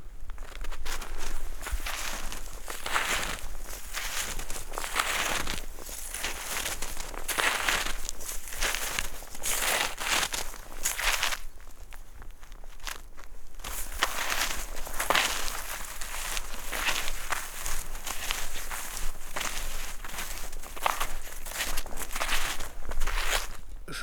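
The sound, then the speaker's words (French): Snowshoes tread through powder snow in the Vosges mountains, many soft, rhythmic crunching steps with a muffled, silky texture that continue for over twenty seconds, easing briefly into a quieter lull midway. “bien que vous pensiez que tous les sons de neige ressemblent tous au même son, eh bien, écoutez la différence poudreuse en raquette.”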